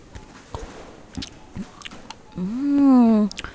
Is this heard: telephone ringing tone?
no

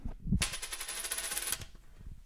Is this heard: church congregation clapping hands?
no

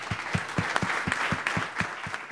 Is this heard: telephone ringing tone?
no

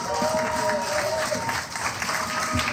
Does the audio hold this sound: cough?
no

